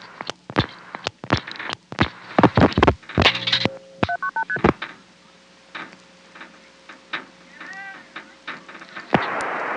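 Touch-tone telephone keypad dialing, many quick clear beeps in rapid bursts, followed by a brief rising series of tones and quieter scattered sounds.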